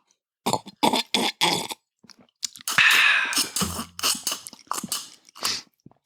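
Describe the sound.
Taking a sip of a drink brings a string of wet mouth noises in short bursts separated by silence. A longer slurping draw follows, ending in a low swallow-like sound.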